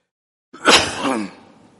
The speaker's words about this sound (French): j'ai senti qu'il y a une petite toux qui me dérange.